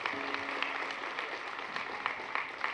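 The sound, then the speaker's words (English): An audience at a church service applauds new members, a dense, even wash of clapping that stays fairly faint and steady throughout. “Please give them a wonderful round of applause.”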